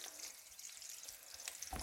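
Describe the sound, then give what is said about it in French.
Meatballs fry in oil in a pan with a faint, soft sizzling crackle and a sharper pop near the end. “Donc maintenant, je vais pouvoir mettre mes autres boulettes dans ma poêle. Hop là.”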